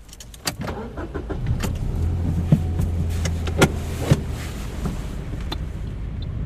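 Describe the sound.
A car engine runs as a learner driver pulls away with the handbrake still engaged, giving a steady low hum broken by a few sharp clicks and thumps.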